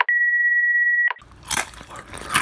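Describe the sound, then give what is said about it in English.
A potato chip is crunched: after a long, steady electronic beep, a few crisp crunching bites follow, moderately loud, with no talking. “Sorry, I'm eating a chip.”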